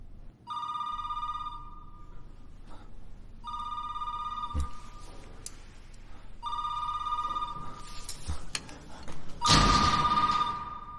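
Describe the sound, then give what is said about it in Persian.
A telephone rings in repeated long bursts of bright, steady ringing tone separated by short pauses, loud and clear with no voices. “داره زنگ میزنه، تلفون داره زنگ میزنه.”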